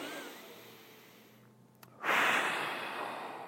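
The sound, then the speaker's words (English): A deep breath, soft and airy, with a hushed stretch of breathing that swells into a louder rush of air near the end. The breathing is faint, and no words are spoken. “why don't we all just take a deep breath right now?”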